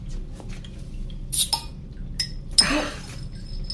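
Glass beer bottles clinking as they are taken from a crate and opened without a bottle opener: a few sharp, bright clinks, then a brief burst of hiss.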